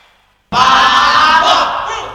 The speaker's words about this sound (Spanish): ¡Los aplausos! ¡Los aplausos para México!